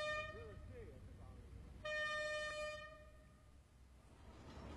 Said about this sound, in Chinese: 伴随着悠长的鸣笛声，一列列满载煤炭的列车缓缓驶入天津港煤炭码头。